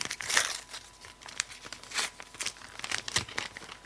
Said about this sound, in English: the other one is like a smaller envelope, and I'm opening this right now.